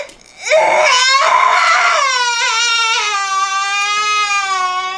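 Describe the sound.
A child cries loudly and without pause, a sustained wailing sob with strong tonal harmonics that starts after a brief quiet moment and holds steady to the end, with no other voices.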